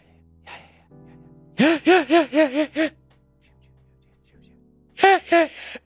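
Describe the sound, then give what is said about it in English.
A voice imitates teachers whispering at school, letting loud inhaled vocalizations slip out: a quick run of five voiced, gasping bursts, a pause, then two more. “and you'd hear the inhaled vocalizations louder because they couldn't regulate that volume.”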